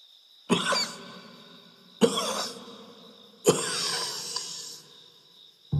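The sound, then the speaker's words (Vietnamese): A man coughs dry and hacking at night: three harsh bursts with a raspy tail, spaced evenly apart, and a fourth starting just at the end. A thin, steady insect chirp, like crickets, hums underneath. “Tiếng ho khan khô khốc và trời trạc.”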